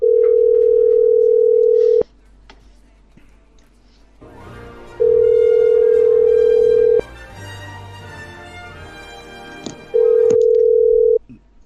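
Telephone ringback tone after dialing a number: three steady, mid-pitched beeps, each about two seconds long, separated by pauses of roughly three seconds with a low background hum. The last beep is cut short.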